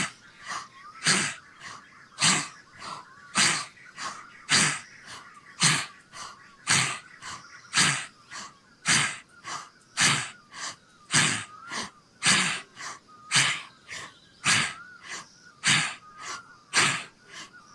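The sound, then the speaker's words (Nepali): Deep breathing during a meditation exercise, with air drawn in and pushed out through an open mouth. Many short, airy, hissing breaths follow each other at a steady rhythm, roughly one per second, fairly faint and without voices. “फेरि सास तान्ने, मुख खोलेर सास फाल्दै सास तान्दै।”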